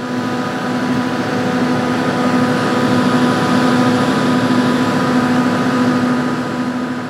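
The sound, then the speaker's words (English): A diesel generator producing electricity at an Argentine Antarctic research station drones in a loud, steady hum with a constant low tone and even mechanical noise, unchanging throughout. “So here is a quick sample of a diesel generator producing electricity in the Carlini station in Argentina.”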